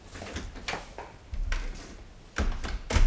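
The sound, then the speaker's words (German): Door being locked and then bolted, heard as a few quiet, sharp clicks and knocks spread out over about three seconds, with heavier clunks near the end. “Oh, ich muss ja doch wieder abschließen. Und den Riegel...”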